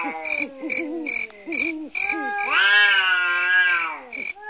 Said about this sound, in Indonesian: ada kucing gaduh di belakang rumah